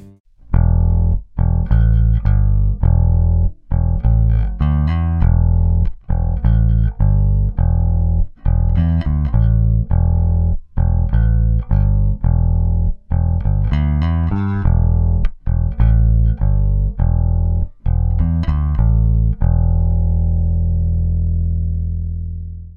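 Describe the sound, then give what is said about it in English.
An active electric bass guitar with a preamp plays a run of many plucked notes in an uneven rhythm, loud and full with a deep low end. The final note rings on and slowly fades out. “But let's go ahead and take a listen to an active bass.”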